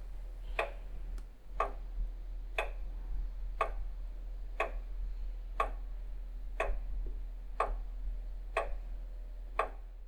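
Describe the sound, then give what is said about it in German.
Steady ticking of an old weight-driven lantern clock, once kept in a church tower, with crisp, sharp ticks about once per second over a low, constant hum and no talk. “Trotzdem musste man sie alle drei Tage aufziehen. Bis 1861 befand sich diese Uhr im Stephansturm.”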